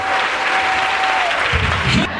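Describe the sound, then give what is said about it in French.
An audience applauds during a church service. Dense, loud clapping runs steadily through the whole stretch and stops abruptly at the end. “On peut acclamer le Seigneur, s'il vous plaît. Est-ce qu'on peut acclamer Jésus?”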